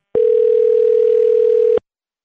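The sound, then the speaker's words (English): A telephone dial tone sounds while a call is being placed: one loud, steady, even-pitched hum starts abruptly, holds for about a second and a half, then cuts off cleanly. “So let's dial him up”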